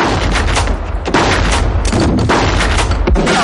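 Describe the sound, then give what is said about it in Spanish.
Heavy gunfire from a shootout in the 1997 noir film L.A. Confidential, with rounds tearing through walls. Loud, rapid, overlapping shots and impacts crackle nonstop in dense bursts. “Los impactos atraviesan las paredes. Un atacante entra, White le mata.”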